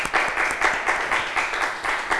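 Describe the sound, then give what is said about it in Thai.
Classroom applause for a student: a group of pupils clapping in a steady, even rhythm of repeated bursts that carries on through to the end. “เก่งมากค่ะปรบมือให้เพื่อนอีกหนึ่งครั้ง”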